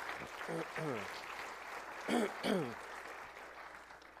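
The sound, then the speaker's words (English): Audience applause welcoming guest speakers who have come to share about their ministry in Mexico, a soft, steady wash of clapping that runs throughout while voices speak over it. “So let's give them a hand and welcome them here this morning.”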